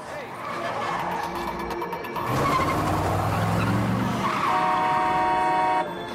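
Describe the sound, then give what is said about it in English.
A car brakes sharply with its tyres skidding on a road: loud rushing engine and road noise, rising into a sustained high-pitched tyre squeal that cuts off near the end. “They're about to cross a road when a car brakes sharply.”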